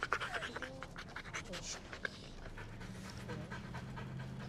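A dog pants rapidly and steadily, quick breathy puffs repeating in an even rhythm at a fairly soft level.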